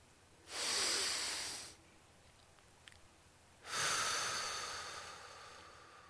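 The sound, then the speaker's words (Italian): A patient breathes during a medical examination: two long, airy breaths separated by a quiet pause of about two seconds. The second breath is longer and fades slowly. “Tossisca. Respiri. Trattenga il fiato.”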